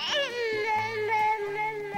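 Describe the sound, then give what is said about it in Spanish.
A six-month-old baby vocalizing with a drawn-out tonal voice that drops in pitch at the start, then holds a steady, fairly high note. “Un bebé de 6 meses ensayando un nuevo tono de voz.”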